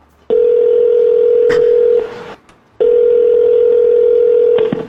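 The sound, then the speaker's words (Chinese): Ringback tone of a call placed from an iPhone to a coffee shop: two long, steady, mid-pitched tones separated by a short pause, heard alone. “And I can even go look at that Starbucks, and there it is. And let's give him a call.”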